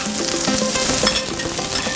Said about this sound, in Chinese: 煎的时候锅铲一定用用力，就是贴着那个铁板用用力的铲上来，它才不会粘锅。